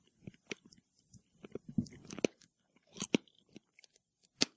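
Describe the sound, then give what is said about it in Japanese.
Pistachios are being eaten, with their shells cracked open. Many faint, sharp crunches and cracks come at an irregular pace, along with soft chewing and no talking. “普通に美味しいですよ、ピスタチオ。”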